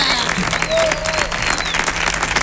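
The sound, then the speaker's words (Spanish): An audience applauds a singer, a loud, sustained burst of clapping that stays steady throughout, with faint cheering voices mixed in. “Maravilloso, por favor, un aplauso.”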